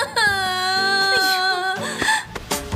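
A woman crying, a loud, high wavering wail that bends lower partway through, then breaks into choppy, uneven sobs.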